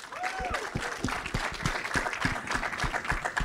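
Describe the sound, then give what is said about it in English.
Audience applause for Tariq Sharif, co-founder of the Rolling Loud festival: a quiet scattering of distinct claps in a loose rhythm, with a brief whoop near the start. “We got Tariq Sharif. He's the co-founder of Rolling Loud. Can we please make some noise there?”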